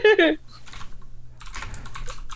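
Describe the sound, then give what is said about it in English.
Typing on a computer keyboard: a brief voice at the start, then many soft keystroke clicks, becoming denser and faster in the second half. “I typed it wrong.”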